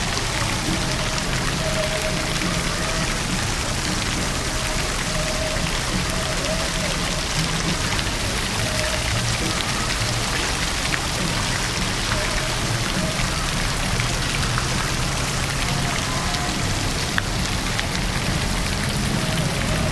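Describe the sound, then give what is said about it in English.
Water splashes steadily in an outdoor fountain, a dense, even rush like heavy rain that holds at one loud level throughout, with no voices or other sounds breaking through. “Kind of a cool sound here. Let's check it out. We'll walk around it. Maybe you'll get like a three-dimensional sound or something. We'll walk all around the fountain.”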